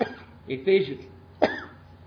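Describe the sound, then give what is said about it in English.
A single sharp sneeze bursts out during a spoken Bible lesson, a brief explosive blast following a few moments of low speech-like sound. “It must be spring. I'm sneezing.”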